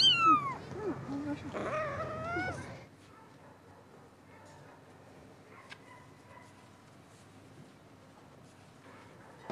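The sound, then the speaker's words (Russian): A cat that children have brought into a sandbox lets out a few loud, wavering meows in the first seconds. Then only faint, low background noise remains, with occasional small clicks. “Дети притащили в песок кота.”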